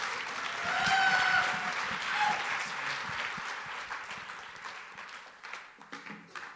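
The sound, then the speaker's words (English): An audience applauds to welcome a speaker to the stage at an evening talk on creativity. The clapping is steady and full, then thins and tapers toward the end. “So I'm going to go ahead and welcome him up, and would you go ahead and give him a hand?”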